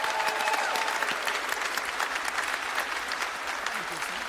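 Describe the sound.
Audience applause on The Voice welcoming singer Jesse Campbell to the stage, a dense, continuous clapping that stays steady and loud for the whole stretch.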